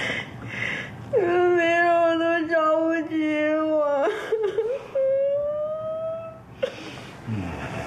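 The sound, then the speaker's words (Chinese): A person cries in long, drawn-out voiced wails. A steady held cry of about three seconds breaks off, then a higher sustained wail follows and fades out. “怎么哭了？”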